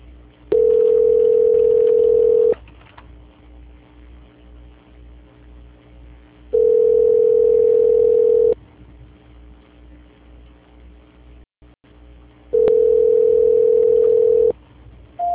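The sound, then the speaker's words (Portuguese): A telephone line tone sounds during a call transfer: three steady, mid-pitched electronic tones, each about two seconds long, repeat at even intervals over a faint low background hum. “Só um instantinho, por gentileza, que eu estou transferindo aqui novamente.”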